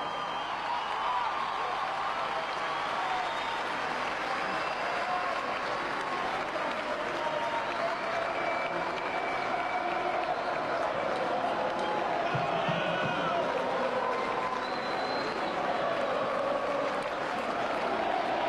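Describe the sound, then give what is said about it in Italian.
Audience applause greets a performer as he is introduced, even and continuous clapping sustained for about eighteen seconds at a fairly faint level, with voices mixed in. “Fuerte applauso, eh!”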